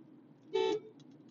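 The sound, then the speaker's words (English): A car horn gives a single short honk, steady in pitch and clearly louder than the quiet background hum around it. “that's me honking”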